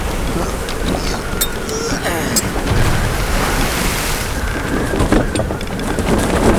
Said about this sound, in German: Der Wind ist zu stark. Wir können unmöglich wenden.